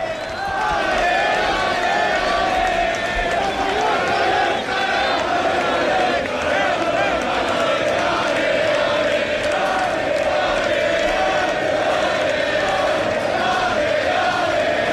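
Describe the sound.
A crowd of about 1,500 Real Mallorca fans waits for the team bus at Camí dels Reis, forming a loud, continuous din of voices and shouting that stays steady throughout.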